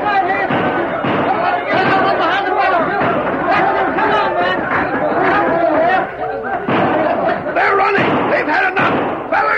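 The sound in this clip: Rapid rifle gunfire in a battle, used as a radio drama sound effect, forms a dense, continuous barrage of loud cracks and thuds mixed with shouting voices.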